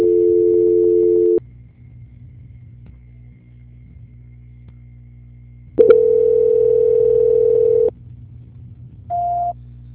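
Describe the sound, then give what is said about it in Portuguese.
Telephone tones play while a call is transferred: a steady tone, a stretch of low line hum, a longer tone, then a short higher beep. “Só um minutinho que eu estou transferindo a ligação para a auditoria.”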